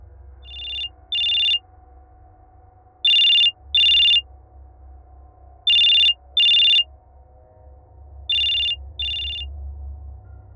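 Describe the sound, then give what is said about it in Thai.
Phone ringing with an incoming call: four pairs of bright, high-pitched electronic trills repeat at regular intervals over a low, continuous hum. “หนึ่งสัปดาห์ก่อนที่จะย้ายเมือง จู่ๆไอ้แฝดนรก ก็เป็นฝ่ายโทรมาหาผมก่อน”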